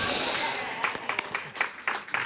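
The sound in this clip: A group of people claps for a team after a 40–2 loss. It begins as a steady wash of handclaps, then breaks into looser, separate bursts toward the end.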